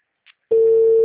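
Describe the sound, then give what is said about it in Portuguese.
A telephone line tone sounds on an unanswered call. After a brief faint blip and a short silence, a loud, steady, single-pitched tone starts and holds to the end. “Tô tentando ligar o microfone. Microfone não pega. Fica chamando, mas não tá ouvindo nada.”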